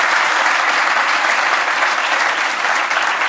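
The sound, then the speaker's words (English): Dense, continuous applause from an audience, loud and steady throughout with no pause. “Yeah, please give a hand.”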